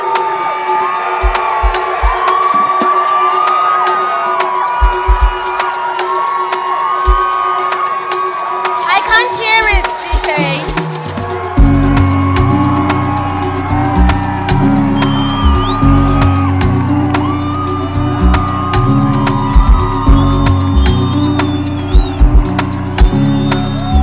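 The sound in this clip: A festival audience stands, cheering, whooping and shouting to welcome a speaker. The loud crowd noise is sustained, with voices heard throughout.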